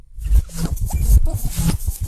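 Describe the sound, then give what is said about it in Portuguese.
A cassette tape is pushed into a player rigged up with a makeshift fix, giving many small clattering clicks and scraping rustles in a dense, continuous run with no speech. “Vai meter a fita cassete ali, meu.”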